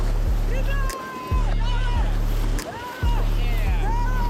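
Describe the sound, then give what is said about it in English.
Paddling a boat through a small rapid: rushing water and rhythmic paddle strokes repeat every second or so beneath loud, excited voices. “Start paddling forward. There's a small rapid. Let's go faster.”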